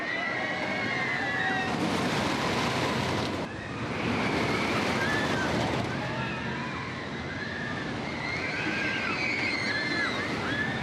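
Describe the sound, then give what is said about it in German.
Steady, loud roaring rush of a wooden roller coaster ride, running since 2009, sustained throughout with faint, high-pitched squeals or cries rising above the broad rumble. “Eine ganze Stufe mehr bietet schon die Holzachterbahn El Toro, die seit 2009 Fahrspaß bietet, inklusive Geräuschkulisse.”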